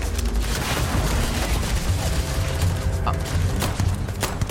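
Gunfire from mining guns in a video game battle against pirates: a dense, continuous barrage of rapid shots and crackling bursts that stays loud and busy throughout.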